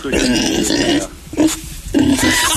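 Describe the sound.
A person imitates a pig, letting out a few rough, nasal grunts and snorts in separate loud bursts with short pauses between them.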